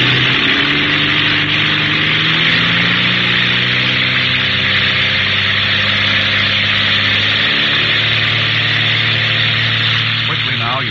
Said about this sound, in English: Feathering on the propeller and open up the throttle, keeping in a tight vic with Parker and Jeff